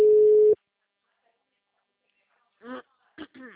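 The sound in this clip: Telephone ringback tone of a call ringing out: a single loud, steady, low-pitched tone that cuts off after half a second, followed by silence and then a voice speaking.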